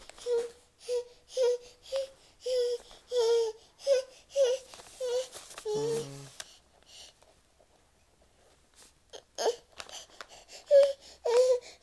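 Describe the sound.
A baby fusses and cries in many short, rhythmic wailing bursts, then falls quiet for a few seconds before a few more whimpering cries return.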